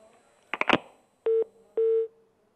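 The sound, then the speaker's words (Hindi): Telephone tones after a dropped call: a quick cluster of dialing beeps, then two longer, steady mid-pitched tones separated by a brief gap, with no talk. “ये call हमारे से drop हो गई।”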